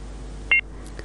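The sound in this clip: A short electronic two-tone beep sounds as a telephone line connects a caller, followed by a couple of fainter blips over a low hum.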